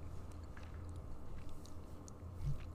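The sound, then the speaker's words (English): Faint crunching and chewing of a very dry pretzel, soft irregular bites and mouth noises at low level with no talk. “You hear that? I'm so sorry if you can hear that. I'm eating again. Yeah, we're eating pretzels this time.”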